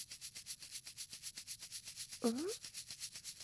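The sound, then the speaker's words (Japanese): Steady rhythmic polishing and scrubbing of a surface: many quick, even rubbing strokes repeat throughout, with a brief voice sound partway through. “次はこの辺りを重点的に磨いて、それからこの裏側も、”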